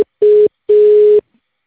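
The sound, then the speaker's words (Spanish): Telephone tones play as a call transfers to voicemail: the clipped tail of one tone, then two steady, low beeps, the first short and the second about twice as long, with silence between them. “Tu llamada está siendo transferida y se cobrará al terminar los tonos siguientes.”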